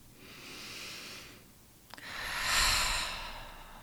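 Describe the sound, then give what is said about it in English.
A deep breath during a guided meditation: a soft, airy inhale, a short quiet pause with a faint click, then a louder, longer breathy exhale like a sigh that fades out. “hold your breath at the top of the inhale and allow your exhale to be whatever your body wants it to be.”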